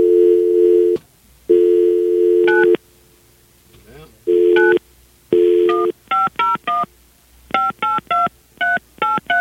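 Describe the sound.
A telephone dial tone hums in a few steady stretches, then gives way to a quick run of many short touch-tone beeps as a number is dialed to call someone back.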